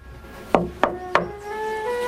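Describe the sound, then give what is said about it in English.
Three sharp knocks on a darkroom door land in an even, quick rhythm. They are loud and distinct, followed by a short stretch of quiet. “Sam knocks on the dark room door.”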